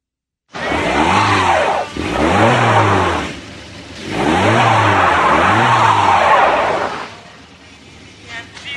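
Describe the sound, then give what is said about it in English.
A car engine revs hard while its wheels spin, stuck in snow at night. The revs come in two loud bursts of rising and falling surges with a whining spin, separated by a brief easing off. “Don't gun it. You're digging yourself in. Just tap the gas lightly.”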